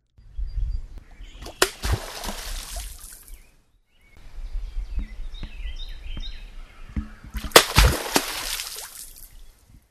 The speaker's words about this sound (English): That was the sound of an American beaver smacking its tail on the water surface as the animal submerged.